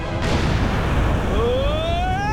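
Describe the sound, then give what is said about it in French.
Explosives blow up a lava mountain in a sustained, loud, roaring blast rumble. A whistling tone rises steadily in pitch over the second half. “L'explosion a provoqué un énorme raz-de-marée.”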